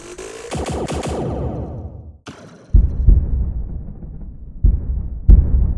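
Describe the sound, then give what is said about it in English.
Sci-fi weapon effects as starship batteries fire on a space zeppelin: a burst of loud zapping sweeps, then a sudden cut to a few deep, rumbling explosion booms that rise and decay one after another. “Ensign, fire all batteries at that space Zeppelin. Yes, sir. Firing all batteries, sir.”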